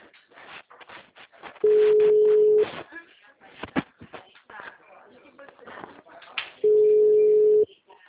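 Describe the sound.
Two long, steady ringback tones sound on a phone line while a call is being placed, each about a second long and roughly five seconds apart, with quiet talk in between.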